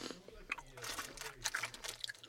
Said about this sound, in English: Okay, so I'm gonna bite into it. Oh, that's a horrible sound.